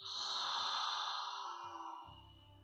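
Slow, deliberate breathing during a guided relaxation: one long, airy breath drawn out over about two seconds, steady and fairly loud, then fading gradually toward the end.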